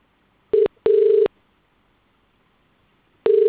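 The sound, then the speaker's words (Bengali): A phone call being placed as a test call, heard as a loud, steady mid-pitched ringing tone: a short beep and a longer one, a long silent pause, then another tone beginning, with no talk. “না, দাঁড়াও call লাগাচ্ছি, নিয়ে কেটে দেবো।”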